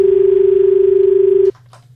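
A telephone line tone as an incoming call connects: a steady, slightly pulsing single tone lasts about a second and a half, then cuts off abruptly to a faint low hum.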